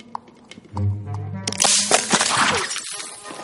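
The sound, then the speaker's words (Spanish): A dragon hatchling breaks out of its eggshell. A low droning tone leads into a dense burst of cracking, crunching and scraping that fades gradually, with no talk. “El cachorro de dragón rompe el cascarón.”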